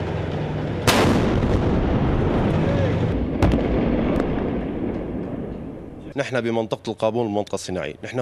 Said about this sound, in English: Here, Syrian army tanks and artillery target the militants' bastions.